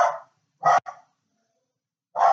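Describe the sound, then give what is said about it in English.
A dog barks four times: a bark at the start, then two quick ones close together, a pause, and a final bark. The barks are loud and sharp with no talk over them. “I don't think he's barked yet on this podcast, so that's unlucky, but hopefully it stops. Soon.”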